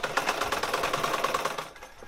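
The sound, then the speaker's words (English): A fashion designer's sewing machine runs while she fills orders, giving a steady, rapid mechanical clatter of stitching that holds an even rhythm and eases slightly near the end. “Adele Dos Santos, another fashion designer, is huddled over her sewing machine, filling orders.”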